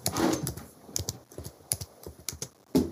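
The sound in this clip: Keys clatter as someone quickly types a short note, with many irregular clicks in uneven bursts and brief pauses, fairly quiet throughout.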